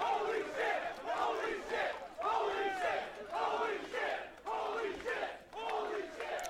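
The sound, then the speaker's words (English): A raucous crowd at a live wrestling event in New York City yells and chants loudly in repeated rhythmic surges, with voices swelling and dipping continuously. “A raucous crowd here in New York City.”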